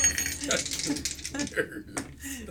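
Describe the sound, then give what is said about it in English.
Dice rattle and clatter across a tabletop as they are re-rolled during a tabletop game, a few quick clicking bursts heard under people talking. “I rolled a 69. Nice. I'm going to re-roll that.”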